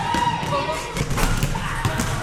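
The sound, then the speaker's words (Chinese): A basketball dribbled on a court by young Buddhist novice monks following their master makes a few dull thudding bounces under a voice that talks throughout. “小沙弥们跟着师父在篮球场上运球上篮，展现满满的活力。”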